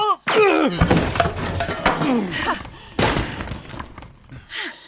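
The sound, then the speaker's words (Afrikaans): A person falls onto chairs, making a few heavy thuds and clattering crashes in quick succession, loud and sharp, with vocal cries mixed in between the impacts. “Net bly, jy het op die stoele geval. Moeilik om te praat as jy op die vloer lê.”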